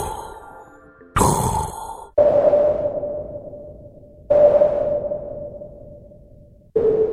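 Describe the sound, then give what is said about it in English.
Sonar-style scanning pings built from filtered noise for a sound effect. A whooshing burst of noise comes first, then a few sharp pings, each ringing as a steady mid-pitched tone that slowly fades before the next strikes. “For the scanning sound, I had like a sonar ping, and I used a filtered noise.”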